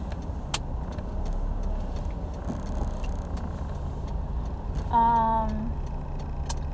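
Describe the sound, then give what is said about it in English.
Steady, low rumble of a car being driven, a continuous engine and road drone with a few faint ticks and a brief tonal note near the end, no talk. “Sorry, I'm driving right now”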